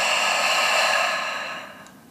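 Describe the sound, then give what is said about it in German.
An exhale through the open mouth during a breathwork exercise: a steady, breathy rush of air that holds even for over a second, then fades away, with no talking. “Öffne deinen Mund, atme alles aus durch den geöffneten Mund.”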